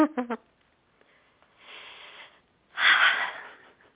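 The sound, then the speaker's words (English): Two deep breaths are taken during a relaxation exercise, after a brief vocal sound at the start. A soft, airy inhale is followed by a louder, fuller exhale of about a second, both breathy and noisy. “take another couple of deep breaths. The exercise is complete, so go ahead and open your eyes as you take your breaths.”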